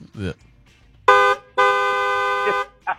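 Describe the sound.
Car horn honking sound effect: two flat, steady blares, a short one and then a longer one, with people talking just before and after.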